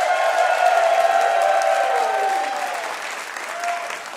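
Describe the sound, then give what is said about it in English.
Applause with some cheering rises for the students of the Brooklyn Guitar School. Dense clapping holds strongly, then eases slightly toward the end. “let's hear it for the students at the Brooklyn Guitar School.”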